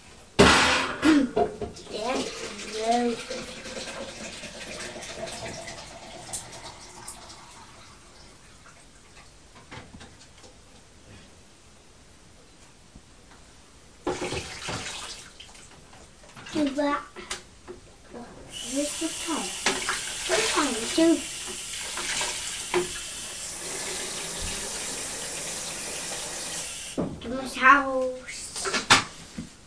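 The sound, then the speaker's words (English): Water runs from a tap to fill a kettle before it is boiled, a hissing rush that comes and goes while an adult and a small child talk over it, with some clattering in between. “I'm just going to boil the kettle”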